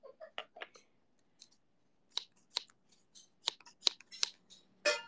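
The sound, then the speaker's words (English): Scissors snip through hair in a run of faint, crisp clicks at irregular spacing, clustering more quickly toward the end, with no voices. “I'm cutting your hair.”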